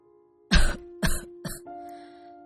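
An old man breaks into a coughing fit: three harsh, rough coughs in quick succession, each weaker than the last, over a steady low tone.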